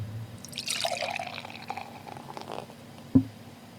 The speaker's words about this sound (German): Hört man als Brauerin schon, wenn man einschenkt, ob das ein besonders gutes oder ein besonders schlechtes Bier ist?